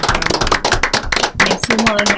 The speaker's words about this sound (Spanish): Así que un aplauso, terminamos este programa.